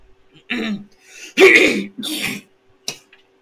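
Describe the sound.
Someone clears their throat to shift something stuck in it, in four harsh bursts: three longer rasping ones close together, then one short, sharp one after a pause.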